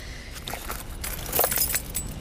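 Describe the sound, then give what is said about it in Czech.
Keys jangle as a handbag is searched for a door key: light, irregular metallic clinks and rustles, fairly faint, that grow a little busier toward the middle. “Mohl bys mi najít v kabelce klíč od dveří?”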